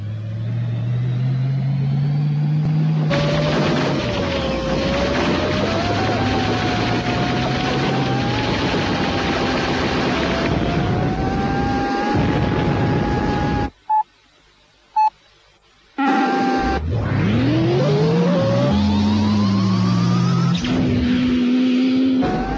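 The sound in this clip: Synthesized engine drone of fire-engine vehicles racing in a video game, a steady buzzing hum whose pitch keeps sliding up and down. Midway it drops to near-silence broken by two short beeps, then the revving engine sound resumes.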